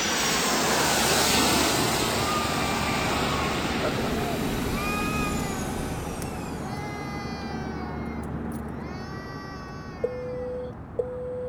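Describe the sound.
An airplane arriving at Taiwan Taoyuan International Airport gives a loud, broad jet roar with whining engine tones that gradually fades and thins. Two short, steady tones sound near the end.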